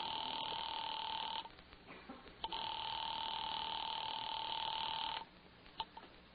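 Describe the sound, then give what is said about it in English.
A telephone ringing after a number is dialed from a military police office in Chicago, heard from the caller's end as two long, steady electronic ring tones separated by a pause with faint clicks, fairly quiet overall. “on duty in that office, had just dialed the telephone number.”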